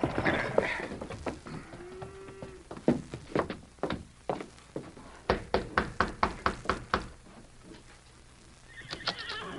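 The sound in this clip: Horses whinny as they are ridden up to a ranch house and reined in. A loud neigh opens and closes the scene, with a rapid, uneven run of clopping hoofbeats and a few knocks between.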